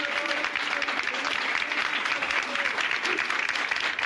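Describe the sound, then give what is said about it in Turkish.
Sustained applause from protesting municipal workers in a city council hall as the mayor enters, a dense, steady clatter of many hands that holds at an even level throughout, with voices faintly mixed in. “Başkan Ünsal alkışlar eşliğinde belediye meclis salonuna zorlukla giriş yaptı”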